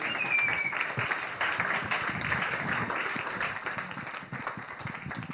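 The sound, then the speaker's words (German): Audience applause for a speaker stepping on stage at a reporter slam birthday event: dense, sustained clapping from a crowd that holds at a steady level and eases slightly toward the end. “Applaus für Christian Bollert. Applaus”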